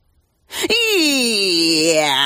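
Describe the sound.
A tough tomcat lets out one long, drawn-out yowl, a loud wavering wail whose pitch dips slightly and then holds steady for nearly two seconds.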